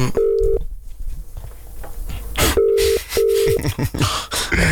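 Telephone keypad dialing tones as someone calls a dealer: three short, steady beeps, one alone and then a close pair, amid rustling handling noise.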